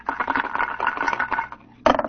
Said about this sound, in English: Select, roll dice.